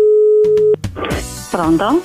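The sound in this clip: Telephone tone while a call is placed, a steady single-pitched electronic tone with a couple of faint clicks, cut off abruptly after under a second and followed by voices.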